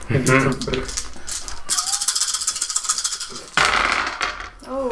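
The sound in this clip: Rattle of two dice rolled for a tabletop role-playing game, a quick clattering run of small hard clicks heard under people talking.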